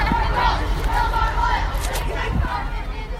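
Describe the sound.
A crowd of students at a school climate protest shouts and chatters in a steady, dense babble of overlapping voices.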